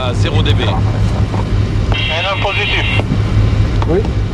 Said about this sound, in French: Donc nous empruntons une nouvelle fois cette machine. Le tor astronautique s'élève doucement en direction du passé.